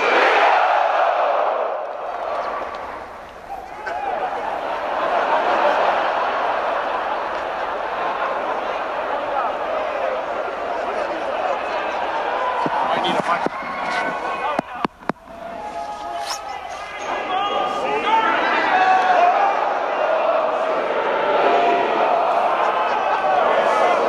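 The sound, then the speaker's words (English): Columbus Blue Jackets hockey fans sing the Star-Spangled Banner together, a sustained mass of crowd voices that carries through most of the stretch, briefly dips, then swells louder toward the end. “Ladies and gentlemen, our national anthem, provided by you, the Columbus Blue Jackets fans. On the Star Spangled Banner”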